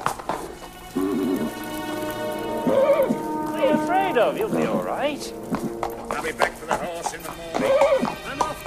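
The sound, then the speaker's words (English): A horse in a stable with hay whinnies and snorts several times, its wavering neighs rising and falling. Soft rustling and hoof shuffles accompany it, with occasional speech. “I'll be back for the horse in the morning. I'm off to... Easy, Beauty. Shh. Eat your hay.”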